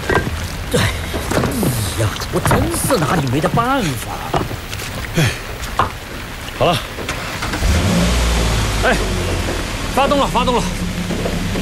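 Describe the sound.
A car engine starts and revs on a muddy mountain road, with the vehicle stuck in a mud pit. A low, steady rumble rises in the second half under people talking.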